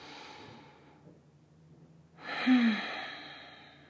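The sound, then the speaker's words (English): Slow, even breathing in a gentle sunrise yoga class: a soft breath fades away, a quiet pause follows, then a fuller, louder breath swells and trails off. No one speaks. “we're going to slowly begin to inhale and slowly exhale in equal measure, allowing it to continue to build.”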